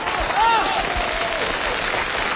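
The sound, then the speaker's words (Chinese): Audience applause at the 1993 Spring Festival Gala, a steady, dense wash of clapping that holds at an even loudness for the whole stretch. “朋友们，1993年春节联欢晚会现场拍卖开始， 让我们以热烈的掌声表示祝贺。”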